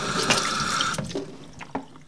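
Water runs from a sink tap as a woman in Fresno County washes her hands, a steady rushing flow that gives way to softer splashes and drips.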